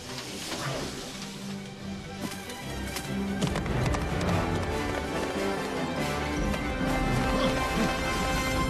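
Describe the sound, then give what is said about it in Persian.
A horse gallops, its hooves pounding in a fast, steady run of dense, thudding clip-clops that stays loud and continuous throughout. “به سرعت باد بتاز، تک تاز.”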